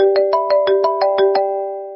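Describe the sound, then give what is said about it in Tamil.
A phone rings during a police inspector's murder investigation in a crime audio drama: a rapid series of bright, buzzing ring pulses over a steady tone, which then fades away. “Explain பண்ணி அவர் முடிக்கும் போது குணசேகரனுடைய phone அடிக்க ஆரம்பிச்சது.”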